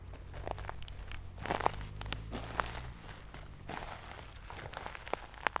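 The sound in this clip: Footsteps crunch over the floor of a pine forest as a dog races through and its owner runs after it. Scattered, irregular crunches and rustles vary in loudness, with a few sharper snaps.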